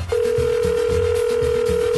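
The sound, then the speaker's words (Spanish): A steady telephone tone sounds as a call goes unanswered, holding one unbroken mid-pitched note throughout with low rhythmic thumping underneath. “A ver, márcale. Y no está contestando.”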